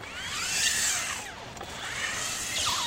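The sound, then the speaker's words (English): A robot car wheel driven by mini electric motors scrubs and whirs as it rotates on a linoleum floor, giving a high, whining motor tone whose pitch sweeps up and down, briefly easing mid-clip before rising again. “What you're hearing right now is actually the wheel scrubbing against the linoleum floor. And basically, I'm rotating it to the right, 360, and now I'm going to drive forward.”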